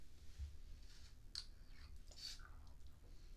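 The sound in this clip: Someone eating raw custard pudding (nama purin) with a coconut aroma: faint, soft chewing with a few small clicks, alone and quiet throughout.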